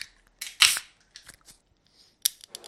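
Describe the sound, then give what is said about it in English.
A can of wheat beer cracked open: a sharp metallic snap with a bright burst of fizzing hiss, followed by a few smaller clicks and short hisses. “Let's move on to the second can. Time to crack this can. Here goes.”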